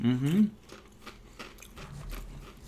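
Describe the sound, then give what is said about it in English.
Crunching of paprika-flavoured Pringles crisps being bitten and chewed: a brief voiced hum at the start, then many sharp, dry crunches in an irregular rhythm, moderately loud and close. “You can't get paprika. Flavored Pringles. You like paprika? Mm-hmm. Yeah? Do you like Pringles?”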